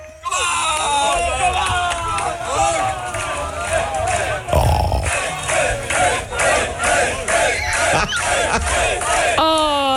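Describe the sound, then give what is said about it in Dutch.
Drunk students cheer on runners as they set off from the start of a running race: a dense crowd of shouting and whooping voices, loud and continuous throughout, with a sharp louder burst of yelling near the middle. “Want je gaat dus, als je dus weggaat, staan allemaal van die dronken studenten die aan te moedigen. Nou, dat klinkt dan dus ongeveer zo.”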